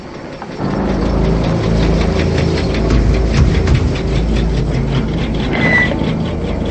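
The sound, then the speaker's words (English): An old blue car's engine drones steadily as the car pulls into a secluded area, a continuous, fairly loud low rumble with no break through to the end. “The old blue car pulls into a secluded area and comes to a stop.”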